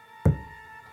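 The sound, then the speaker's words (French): A single dull knock on a surface in an archive séance recording, a heavy low thump with a short decay over a faint steady hum. “Esprit, c'est le chef qui te parle, tu m'entends? Tape un coup. Je t'ai pas entendu, retape un coup.”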